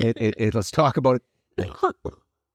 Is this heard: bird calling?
no

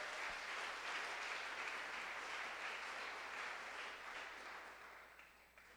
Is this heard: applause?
yes

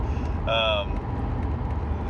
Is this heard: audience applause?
no

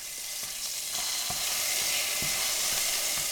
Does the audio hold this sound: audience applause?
no

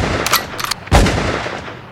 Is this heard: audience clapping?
no

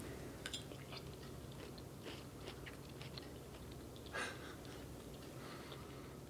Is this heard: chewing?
yes

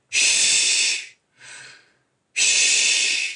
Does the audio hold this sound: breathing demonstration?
yes

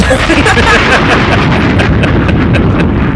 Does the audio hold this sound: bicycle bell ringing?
no

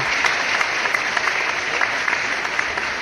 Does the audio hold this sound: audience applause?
yes

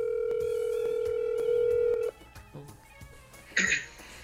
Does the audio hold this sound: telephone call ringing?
yes

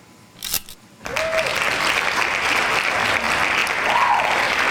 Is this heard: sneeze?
no

